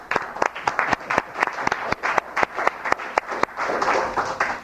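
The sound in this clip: Applause in the Senate chamber in Juneau welcoming a new regent, made of distinct, fairly regular claps from a modest number of people. The claps are crisp and loud, then blur into a denser patter near the end.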